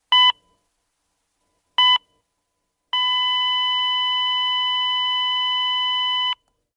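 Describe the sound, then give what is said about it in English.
A heart monitor sounds two short, evenly spaced electronic beeps, then a single unbroken flatline tone that holds steady for over three seconds before cutting off, marking a heart stopping. “That is the sound of a heart stopping.”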